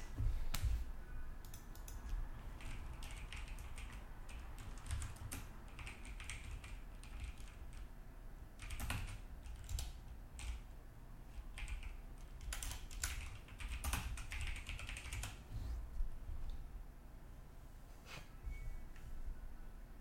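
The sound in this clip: Typing on a computer keyboard as a search is entered: many faint, quick, irregular key clicks with brief pauses between bursts, alone and without speech.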